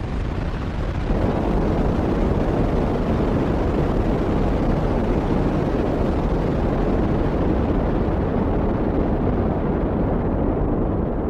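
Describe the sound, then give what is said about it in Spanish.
A deep, loud roar from a rocket spaceship bound for Mars as it takes off. The roar swells a second in and then holds as a steady, rumbling blast that stays strong to the end. “A pesar de todo, los tres entraron en la nave y minutos después el cohete despegó dejando en el cielo una preciosa estela de fuego azulado.”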